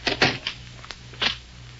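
A door being closed, heard as a few sharp wooden knocks and thumps in quick succession, then a final clunk before quiet.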